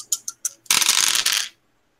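Three dice shaken and rolled for a tabletop game: a few light clicks, then a dense, bright clattering rattle lasting under a second that stops abruptly, with no voices.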